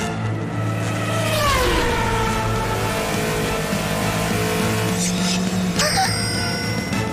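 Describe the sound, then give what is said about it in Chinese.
A race car's engine roars steadily and loudly, having just done a quick tire burnout before setting off. Its droning pitch sags early on, then a sharp rev climbs near the end. “原来这家伙上场前就用快速烧胎法，所以一出发便是最佳状态。”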